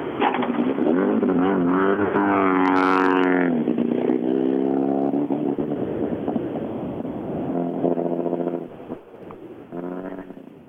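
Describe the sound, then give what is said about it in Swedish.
A rally car's engine roars loudly and steadily, its pitch climbing and falling as it revs and drives on, fading slightly toward the end. “Thomas Åkesson då i kanske världens finaste rallybil”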